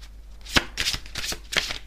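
Playing cards are shuffled in a few quick bursts: a sharp snap near the start, then several brisk papery riffles and rustles in a loose, uneven rhythm.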